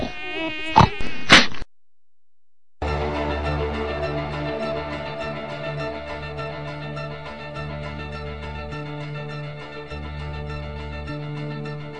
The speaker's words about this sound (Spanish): ¿Es ese fastidioso mosquito que interrumpe los mejores placeres de la vida?